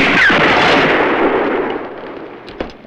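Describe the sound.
A Winchester rifle shot striking a repaired metal breastplate: a loud blast with a long, gradually fading tail, then a short, sharper crack near the end.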